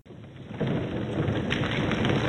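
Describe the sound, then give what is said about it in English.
Thunderous roar of a rock avalanche, with stones pouring down a mountain onto a mine entrance: a dense, rumbling wash of noise that swells sharply after a softer start and stays loud to the end. “When Linus finally approached the mines, a roar like a close thunder made him stop in his track.”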